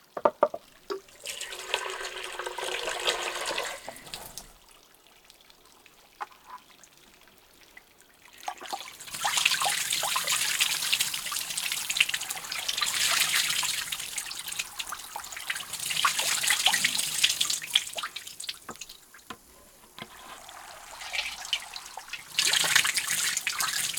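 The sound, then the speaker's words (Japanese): Warm bath water is poured over a person's body in a few splashing, hissing bursts. A short pour opens, a long sustained one follows, and a brief final pour comes at the end, with quieter gaps between them. “それでは、かけ湯でお流ししてまいります。”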